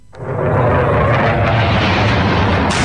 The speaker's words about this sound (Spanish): Este es el sonido del momento captado por uno de los testigos en el que un caza F-16 lanza una bomba sobre el palacio presidencial en Ankara, la capital de Turquía.